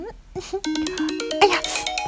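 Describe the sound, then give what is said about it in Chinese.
A phone ringtone for an incoming call, a short melodic run of bright electronic notes stepping along in a quick rhythm, fairly loud. “又有电话怎么办？又是我老公的，不接了啊！”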